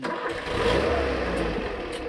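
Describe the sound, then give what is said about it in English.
Engine of an old Austrian Pinzgauer troop carrier used as a safari vehicle, a steady, loud, low rumble with a broad throaty roar that holds evenly throughout, with no talk. “These are our safari vehicles. They're Austrian troop carriers, Pinzgauers they're called.”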